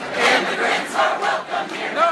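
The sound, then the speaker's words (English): Protesters at San Francisco International Airport chant in unison against a travel ban, loud shouted phrases rising and falling in a steady repeating pulse. “Yes, those are protesters at San Francisco International Airport.”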